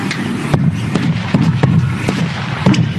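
Carbide shooting, with a row of 76 milk churns fired one after another using a gas burner. Several sharp, booming blasts go off at irregular intervals over a low background rumble.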